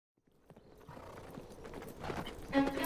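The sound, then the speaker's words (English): Horses' hooves drum in a steady clip-clop on hard ground as knights ride out on a winter's day in Central Europe, starting faint and building to a louder, denser rhythm. “Their horses' hooves drum a rhythm on the hard ground.”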